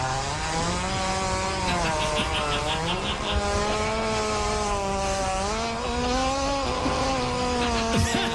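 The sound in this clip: A hippo spins its tail rapidly while defecating, spraying dung everywhere: a loud, continuous, motor-like whirring buzz with a slightly wavering pitch that lasts several seconds, with no voices.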